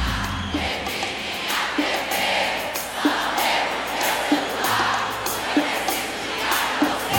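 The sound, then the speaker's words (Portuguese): A live pagode concert audience roars and shouts continuously, a dense, steady wall of cheering voices with regular rhythmic beats running underneath. “Quem gostou, faz barulho.”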